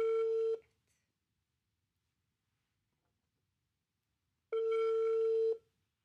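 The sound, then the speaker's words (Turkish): An outgoing FaceTime video call ringing to a friend: two identical steady electronic ring tones, each about a second long, separated by roughly four seconds of silence. “Şimdi bir arkadaşımı arayacağım. Her seferinde de bunu söylüyorum ya. Ben neden FaceTime'dan arıyorum?”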